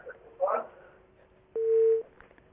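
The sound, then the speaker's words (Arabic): A short, steady telephone line tone on an Arabic phone-in call that has just dropped, a single flat mid-pitched beep lasting under half a second, preceded by a brief burst of line noise. “يبدو ان الاتصال انقطع.”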